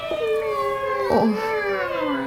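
Cats meowing: one long, drawn-out, wavering meow, loud and steady for the whole clip, with no voices.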